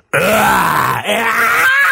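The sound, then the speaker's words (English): A human voice imitates a monster growl drawn in on an inhale: one sustained, rough, raspy tone with a brief dip near the middle, loud and with no other sound. “the inhale is much easier, much It feels good to do that, actually. To be monsters.”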